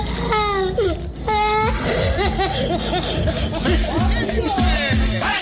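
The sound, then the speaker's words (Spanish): Children crying on command, loud sustained wails and sobbing cries rising and falling in pitch, with several voices overlapping in a continuous, noisy stretch. “Cuando yo les digan lloren, lloren, niños, usted arranque esa lloradera de una vez, sin pena. Arranque a llorar.”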